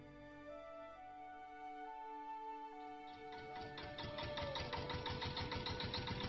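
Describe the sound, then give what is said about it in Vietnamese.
An old Vietnamese công nông farm tractor-truck with a rusty, hole-pocked cargo bed chugs with rapid, regular knocking pulses that grow louder over sustained low tones. “Bác ơi, bác dừng lại cho cháu xuống đây là được rồi. Chiếc xe công nông bao bánh cũ kỹ, thùng xe còn có những lỗ thủng do sắt hoen gì lâu năm dừng lại cách cây đa đầu làng Văn”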